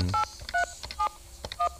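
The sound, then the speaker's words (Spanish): A telephone sounds the tones of an incoming call: four short dual-pitched beeps in an uneven sequence, over other faint clicks and background noise. “Me están llamando, creo yo.”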